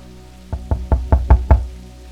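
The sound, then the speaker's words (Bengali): Six knocks on a door on a rainy night, evenly spaced and dull, low and thudding, each one loud and clear over a faint steady hum, with no voices. “পরক্ষণেই আবার দরজায় টকা পড়ল”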